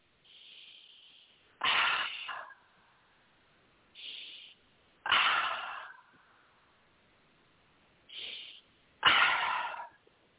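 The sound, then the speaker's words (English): Deep breathing during a guided affirmation session: three slow breath cycles. In each, a softer, airy breath is followed by a louder, hissing one, with pauses of silence between them and no talking. “You take a nice deep breath.”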